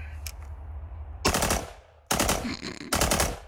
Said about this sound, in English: I installed a Rare Breed trigger in my AR, and I'm here function testing it to see if it runs with my gas system, my buffer, because I haven't changed anything, and just put a few rounds on target